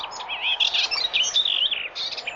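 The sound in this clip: Birds chirping: many quick, high, twittering calls run together in a steady, lively stream throughout, moderately loud with no other sounds.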